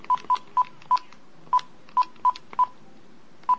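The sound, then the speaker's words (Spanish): Touch-tone keypad dialing of a telephone number: nine short, loud, evenly pitched DTMF beeps in an uneven rhythm, with brief pauses and a longer gap before the last tone. The tones are heard alone. “Vamos a marcar a otro.”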